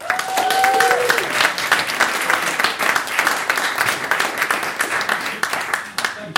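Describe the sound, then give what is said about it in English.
Audience applause welcomes a guest onto the stage at a panel event, a dense, steady wash of many hands clapping that stays loud for about six seconds before thinning slightly at the end. “Please put your hands together, Nick Revell.”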